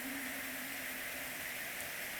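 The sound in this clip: Gentle rain falls as a faint, steady, soft hiss with no separate drops standing out and no voices.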